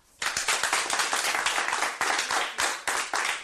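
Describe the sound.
Applause from a theater audience during a performance: dense, loud clapping that starts abruptly and keeps a steady, even texture for about three seconds.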